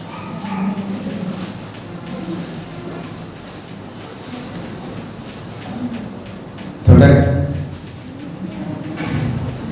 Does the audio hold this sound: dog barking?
yes